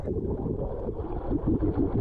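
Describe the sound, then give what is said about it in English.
A boat engine runs on seawater off the coast of the Cape, a steady low rumble that holds at an even level throughout, with no voices. “Hear that? It's the sound of seawater. A boat engine off the coast of the Cape.”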